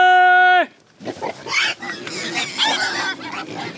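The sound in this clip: Pigs squealing and grunting on a pig farm on Brannan Island along the San Joaquin River, a loud, dense run of overlapping high squeals and snorts.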